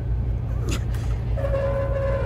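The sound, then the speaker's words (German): A train in a science fiction radio drama starting to move after a lever is released, heard as a steady low throbbing mechanical drone with a brief whoosh and a sustained tone entering midway. “Ich setze die Bahn wieder in Gang.”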